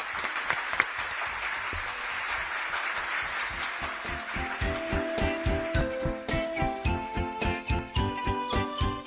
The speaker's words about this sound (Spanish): A ver, aplaudimos. ¡Aplauso!